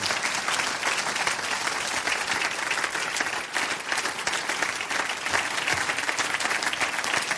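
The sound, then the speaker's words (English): Dense, steady applause from an audience welcoming a guest speaker to the stage, holding at an even, fairly loud level for the whole stretch with no talk over it. “Let's give him a warm welcome.”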